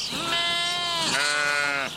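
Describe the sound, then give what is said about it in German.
Sheep from a farm flock of about a hundred bleat twice in succession, two long wavering, nasal calls, loud and clear with no talk. “Aber heute soll es nicht um Rinder, sondern um die Schafe des Bauern gehen. Rund 100 hält er, da gibt es einiges zu tun.”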